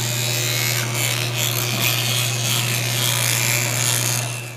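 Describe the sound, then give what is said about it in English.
Electric toothbrush brushing teeth: a steady, loud motor buzz with a bright scrubbing hiss on top, running unbroken for several seconds with no talking. “This is the sound of me brushing my teeth.”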